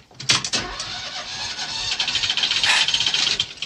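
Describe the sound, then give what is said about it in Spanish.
A car engine starting: a few sharp cranking bursts turn into a loud, rhythmic, pulsing run that grows steadier and stronger toward the end. “intenta arrancar el motor. Enciende.”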